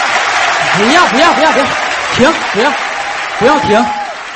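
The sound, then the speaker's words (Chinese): Audience applause at a stage show, a continuous loud wash of many hands that carries on throughout while a voice talks over it. “不要停。不用了，你们都可累了。说句到家的话，从开始到现在，你们始终是掌声不断。”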